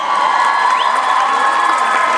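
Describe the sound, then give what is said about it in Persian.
Audience applause and cheering for a pianist at a live concert: dense, steady clapping mixed with crowd whoops, loud and unbroken for the whole stretch, with no speech over it. “اشکان مصطفی عزیز رو یک بار دیگه تشویق بفرمایید نوازنده پیانو”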